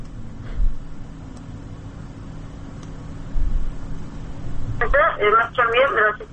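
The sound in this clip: A telephone call connects on a radio phone-in line. A low steady hum and static are heard, then a narrowband telephone voice comes on near the end.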